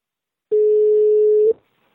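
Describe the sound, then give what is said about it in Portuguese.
A single steady telephone ringback tone, a mid-pitched electronic hum lasting about one second, sounds alone as an outgoing call is placed, then stops cleanly. “Vou ligar, é o seguinte, eu vou ligar agora.”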